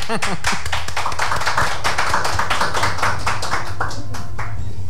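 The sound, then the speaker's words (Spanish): Applause follows a card trick: many quick, sharp hand claps run dense and steady from start to finish, with talk underneath. “Aplauso.”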